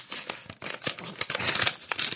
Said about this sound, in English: We have another letter here. Let's open this guy.